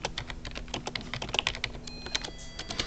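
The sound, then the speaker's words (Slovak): Typing on a computer keyboard into a text editor: many quick, irregular key clicks rattle along in an uneven rhythm, quiet and alone, with no voices. “Teraz otvoríme si textový editor, napíšem skúšobne pár slov.”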